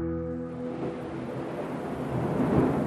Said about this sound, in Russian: дождь разошелся не на шутку. Капли яростно долбили по ветровому стеклу.